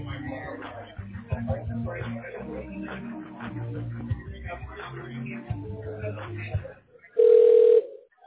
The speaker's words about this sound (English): And the person's line is ringing.